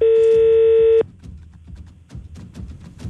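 A telephone being dialed for a live test call: a steady, mid-pitched electronic line tone holds for about one second, then cuts off, leaving faint low rumbling and soft irregular clicks.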